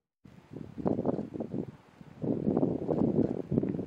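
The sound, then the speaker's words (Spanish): Strong wind gusting at a large wildfire in Niebla, Huelva. It buffets the microphone as low, rumbling bursts that rise and fall in irregular gusts, with no talk. “Esto que escuchan, el viento, es el mayor enemigo del incendio en Niebla.”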